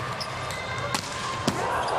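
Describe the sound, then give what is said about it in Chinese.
Volleyball ball contacts during Japan's serving rotation in an international match against Croatia: two sharp, slapping hits about half a second apart over a constant crowd murmur. “好发球，啊，一传也顶住了。”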